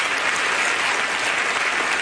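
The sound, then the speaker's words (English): Applause from an audience during a church service: dense, steady hand clapping that continues at an even loudness through the whole stretch, with no spoken voice over it. “Come on, give God a good hand clap offering.”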